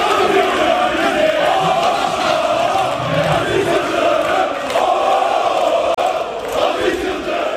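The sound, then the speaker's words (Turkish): Members chant loudly at a tense Fenerbahçe extraordinary congress, a thick, sustained roar of many voices that keeps up without a break throughout. “Sarı lacivertlerin olağanüstü kongresi gergin başladı. Yıldırım ve Safi'yi destekleyen üyeler yoğun tezahürat yaptı.”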